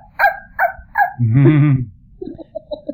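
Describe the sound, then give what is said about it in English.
A human voice imitates a small chihuahua barking, with a few sharp yaps, a longer whiny note, then a quicker string of softer little yips. “we like to say we're imitating a small dog, preferably a chihuahua, going,”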